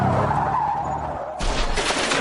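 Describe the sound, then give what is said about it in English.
Car tires skid in a sustained, rough screech before a collision with a deer. The noise is loud and steady, then turns brighter and harsher partway through. No clear impact stands out. “Congratulations, you just met a deer with your bumper.”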